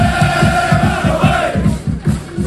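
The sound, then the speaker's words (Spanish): Rayo Vallecano football supporters chant in the streets of Leipzig, a loud crowd singing in unison over a steady, rapid rhythmic thumping that keeps going throughout. “Ya se dejan sentir por las calles de Leipzig, y de momento, Manolo, lo mejor es que a esta hora, ambiente de cordialidad absoluta con los seguidores vallecanos. Así suenan a esta hora las calles de Alemania.”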